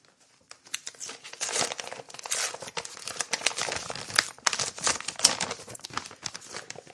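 A yellow paper envelope crinkles and rustles as it is handled and opened, with irregular crackles and crisp tearing-like bursts running almost continuously at moderate level. No voices are heard.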